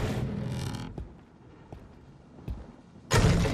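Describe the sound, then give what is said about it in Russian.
A door torn off its hinges is lifted and set back in place in a hut in a Harry Potter drama: a few dull thumps and knocks, with bursts of broad rushing noise at the start and end. “Подняв, ставит сорванную из петель дверь на место.”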